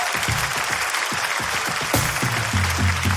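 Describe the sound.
Audience applause following a coin magic trick, a thick wash of clapping with low voices mixing in underneath.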